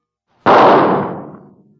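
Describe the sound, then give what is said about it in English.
A single gunshot rings out alone, a sharp loud crack with an abrupt onset that decays into a fading tail over about a second. “Now, as for that shot, here it is.”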